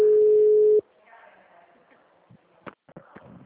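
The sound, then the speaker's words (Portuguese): A phone line tone follows a dropped call: a loud, steady single-pitched tone holds for under a second and then cuts off abruptly, leaving faint rustling and a few short speech-like sounds. “a ligação caiu.”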